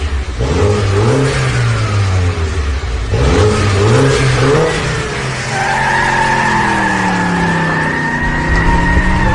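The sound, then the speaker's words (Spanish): A car's engine revs hard during a test drive, an engine that needs warming up before it roars. Its loud tone swings up and down in repeated surges, then settles into a higher, steadier drone. “Además es un motor que tienes que calentar primero para que empiece a rugir, ¿no? Y empiece a sonar.”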